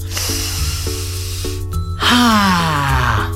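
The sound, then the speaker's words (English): A big, deep breath drawn in, a long airy rush of air rising over a steady background of music. “Take a big, deep breath.”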